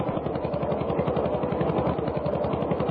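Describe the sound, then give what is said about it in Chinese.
A tractor drives along a village path, giving a low, steady engine chug with a fast, even beat that holds at the same loudness throughout. “就在这个时候，小路上开来了一辆拖拉机”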